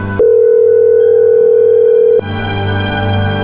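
A telephone dial tone sounds while a call is being placed: a loud, steady single-pitch tone that cuts off abruptly after about two seconds, followed by a different sustained electronic tone.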